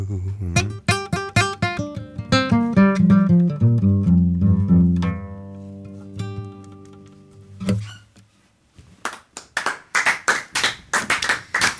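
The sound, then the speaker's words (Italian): Applause breaks out after a live blues concert, following ringing plucked guitar notes that fade away. For the last few seconds a crowd claps in loud, distinct, uneven bursts. “Applausi per davvero strameritati al nostro Luther Dickinson dei North Mississippi All Star.”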